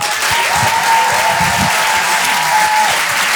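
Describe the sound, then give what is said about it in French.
A comedy club audience applauds and cheers to welcome a comedian onto the stage. The clapping is dense, loud and steady and lasts the whole time. “Un maximum de bruit, s'il vous plaît, pour Cody”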